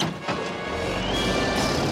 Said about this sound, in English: The digger trundles on. Earl drives the digger away from Bert and Heather's house as they stare at it from the trailer.